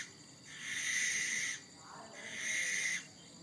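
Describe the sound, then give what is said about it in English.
A barn owl call: two long, harsh, hissing screeches, each lasting about a second, separated by a short pause over faint background noise. “that's like a barn owl's call.”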